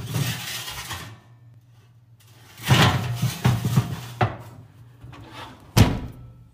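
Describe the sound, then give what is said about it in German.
Several thuds and clunks as a baking tray of cookies goes into a home oven. There are soft knocks, then two sharper bangs later on, over a low steady hum, with no talking. “Okay, vorsichtig. Okay, und ab in den Ofen. Ab in den Ofen.”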